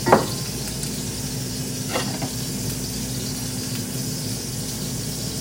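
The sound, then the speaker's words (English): An egg sizzles and fries in an egg ring on a hot cooking surface, giving a continuous, even hiss of spitting fat. A few brief taps and clinks sound at the start and partway through. “so the egg ring looks good. Everything's cooking. Everything seems to be looking good. I'm not burning anything”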